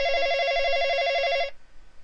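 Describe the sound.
An electronic telephone ring: a single warbling, trilling tone burst lasting about a second and a half, then cutting off abruptly into faint background noise.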